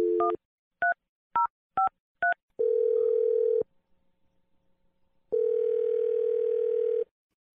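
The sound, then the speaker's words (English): Telephone keypad dialing: a quick series of short touch-tone beeps in shifting pitches, then two long, steady ringing tones separated by a pause with faint ticking. “Here we go. Dial in number.”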